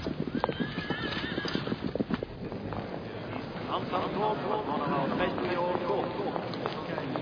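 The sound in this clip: Horses in stables at a chateau during a horse-sale preview: a run of hoof clops fills the first couple of seconds, followed by whinnying and a steady busy mix of horse sounds with voices in the background.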